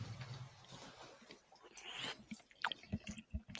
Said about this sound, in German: Nee, aber jetzt probiere ich schon mal. Also. The moment of truth. Zumindest mal. Also. Ah ja, man merkt es auch, wenn man reinsticht, dass da unten eine Kruste ist.